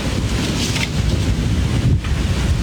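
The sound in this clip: Storm wind in the Tahtakale neighbourhood of Avcılar during a storm strong enough to send a billboard flying: a loud, continuous rushing roar with gusty swells and no voices.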